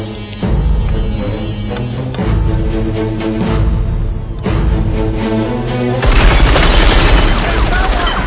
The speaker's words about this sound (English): They're shooting at him. It's panic fire. They can't see anything. They're shooting at the lights.